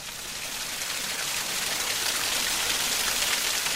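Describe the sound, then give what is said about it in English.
Water rushes and splashes at a coastal hot spring on Vancouver Island, northwest of Tofino. It is a continuous, even hiss like steady rain or a stream, growing slightly louder over the few seconds. “So that's the sound of the water at Hot Springs Cove.”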